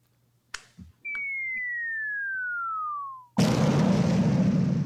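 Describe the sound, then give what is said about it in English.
A bomb whistle and explosion sound effect: a few soft clicks, then a clean whistle that glides steadily downward for about two seconds and cuts into a loud, sustained explosion rumble. “Whoa, Bible bomb.”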